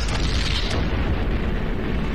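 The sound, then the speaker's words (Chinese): A hand grenade explodes against a bunker in battle, giving a loud, dense roaring boom. The low rumble continues without break, and the hiss in its upper part fades after the first moments. “黄继光扔出的手雷只炸塌了地堡的一角”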